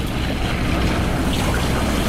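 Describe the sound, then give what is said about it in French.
Surf washing back and small waves lapping against reefs, a loud, dense, continuous rush of water mixed with wind noise and no clear breaks. “particulièrement ces sons de du ressac, du clapotis des vagues contre ces récifs,”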